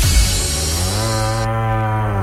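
A single long, deep moo from an ox, loud and held steady from start to finish with a rich, buzzing tone.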